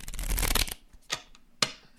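A deck of playing cards being shuffled and handled: a dense, crisp riffling burst up front, then two short sharp snaps of cards, with quiet gaps between and no voices.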